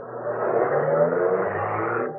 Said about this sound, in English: The man got in, drove off.